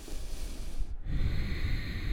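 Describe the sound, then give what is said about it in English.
Throaty, hissing exhale made with a constricted back of the throat during deep belly breathing in a yoga practice, a steady rushing breath broken by a brief pause midway. “If you want to get a little noisy with it, you could constrict the back of your throat, making that subtle sound of H as you exhale.”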